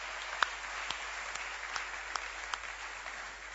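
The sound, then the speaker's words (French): Church audience applauding to acclaim the Lord, a soft, steady rain of clapping in which a few sharper individual claps stand out at intervals. “Gloire au Seigneur, acclamons le nom du Seigneur.”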